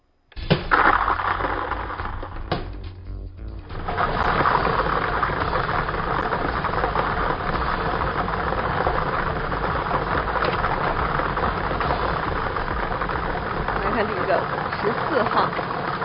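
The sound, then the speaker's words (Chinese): A lottery ball drawing machine runs for a seven-number lottery draw, giving a steady, continuous mechanical whirring and rumbling with a brief dip early on. “我们来启动摇奖机，一起来了解一下。”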